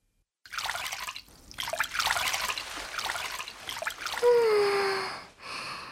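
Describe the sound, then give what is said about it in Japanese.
Warm bath water filling a small, narrow tub, a steady trickling and splashing rush that continues throughout, with a brief whistling tone near the end. “あったかいお湯が気持ちいいね。湯船にお湯溜まってきたね。”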